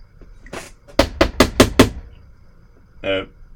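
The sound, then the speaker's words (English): Five sharp, evenly spaced knocks on a door ring out in quick succession, loud and crisp, with a short vocal sound just before and another after. “he would come to places and he would knock on doors”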